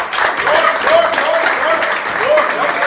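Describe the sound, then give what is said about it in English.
Applause from the audience at a live improvised Broadway-style musical show: dense, steady clapping that holds at an even level throughout, with a few thin tonal sounds riding over it. “I want to ask for a nice round of applause for my wonderful assistant, Mr. Norman.”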